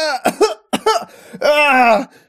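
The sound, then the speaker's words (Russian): A voice imitates a person coughing and spluttering after being dunked in river water: a few short gurgling bursts, then a longer drawn-out voiced sputter that cuts off. “Забулькал, закашлял.”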